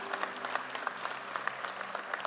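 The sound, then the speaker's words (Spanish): A church audience applauds in worship, producing a steady wash of many hands clapping at a fairly soft, even level, with scattered sharper claps poking through the texture. “Ahora sí hay que levantarle un aplauso al Señor.”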